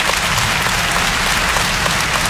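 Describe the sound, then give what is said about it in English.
A comedy show audience answers a question with applause, a loud, uniform roar of many hands clapping together without a break. “By round of applause, how many of y'all believe in heaven and hell?”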